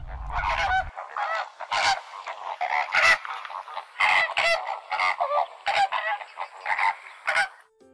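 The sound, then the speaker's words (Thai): Flamingo calls, many nasal, goose-like honks in irregular bursts, some overlapping, fairly loud and without talk. “ที่มีขนสีชมพู คอยาวระหง ชื่อของมันก็คือก็ใครไม่ก็แต่นกฟลามิงโก้ครับ”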